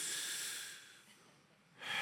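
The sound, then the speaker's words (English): An audience breathes in and out deeply together, a soft, airy hiss that slowly fades away and then swells back up at the end. “Now I heard a lot of you inhale and exhale, so that means there is life in you.”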